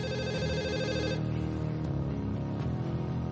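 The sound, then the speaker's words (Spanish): Telephone ringing unanswered at an empty command post in a hangar: a steady tonal ring sounds for about the first second, then gives way to continuing background noise. “Tercera llamada sin respuesta.”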